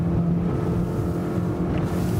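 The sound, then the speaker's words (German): Continuous loud engine roar of a speeding motorboat on water, pursued by another boat to be stopped; a steady, rough drone with no breaks and no voices. “muss das Motorboot jetzt so schnell, aber auch so sicher wie möglich einholen und stoppen.”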